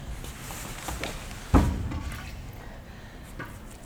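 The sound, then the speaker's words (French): A knock on a door: one short, dull thud against a quiet background hiss, otherwise silent. “Écoute. On frappe encore.”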